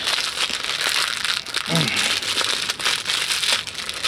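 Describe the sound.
Tape is handled at a campsite while something is taped up, giving a steady crinkling and rustling crackle that continues throughout at a fairly even level.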